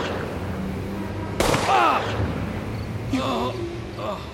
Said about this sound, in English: You shot him. You killed him.